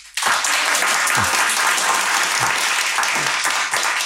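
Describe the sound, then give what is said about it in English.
An audience applauds in the Edinburgh Bookshop during a festival author event. The clapping starts abruptly and stays a dense, steady, loud wash for about four seconds. “Well, as you can hear, there's an audience here in the shop”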